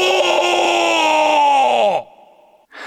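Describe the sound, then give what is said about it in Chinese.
Drawn-out wailing and moaning cries from orcs, a sustained voiced tone that sags downward in pitch and cuts off, followed by a brief fainter sound. “兽人中有人在尖叫，有人在呻吟，甚至有人在哭泣。空气中充满了这些声音。”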